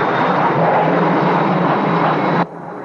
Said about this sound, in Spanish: Poco después, vuelve en su avión a Roma.